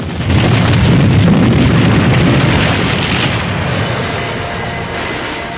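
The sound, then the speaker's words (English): A roaring explosion of fire and smoke as a rock cavern collapses amid falling boulders. A dense, continuous rumble hits loud almost at once, holds, then eases slightly toward the end, with no voices. “Just as they make it inside, the cavern behind them is destroyed in a cataclysm of fire and smoke.”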